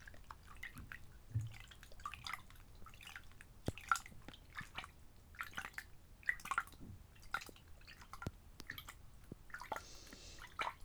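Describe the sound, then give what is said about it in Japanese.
Water rinsing through hair during a hair wash: many soft drips, trickles and small splashes in an uneven, continuous patter, faint throughout, with no talk. “水で流していきますね。”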